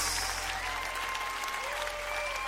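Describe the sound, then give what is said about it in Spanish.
Applause from a crowd at a religious worship gathering, a dense, steady patter of many hands clapping continuously throughout at an even loudness. “dale al Señor un aplauso como Él merece”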